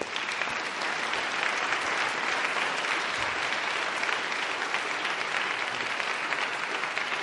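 Studio audience applause welcoming a guest onto a show: steady, dense clapping that holds at an even loudness for about seven seconds, with no voices over it.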